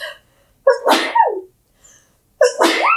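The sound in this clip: Two loud, sharp sneezes from a person, each opening with a voiced, rising 'ah' before a harsh, noisy burst, with a short silent gap between them.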